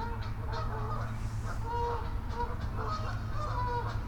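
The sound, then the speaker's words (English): Geese honk and squabble in many short, nasal calls, some overlapping in quick runs, fairly faint over a steady low rumble. “Honk, honk, honk. Listen to those geese having their little goosey arguments. So much goosey drama.”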